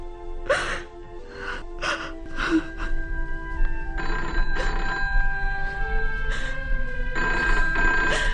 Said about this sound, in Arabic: انا بدي اعرف مين اللي كل شوية بيضرب التليفون ولما رد انا ما بيتكلمش.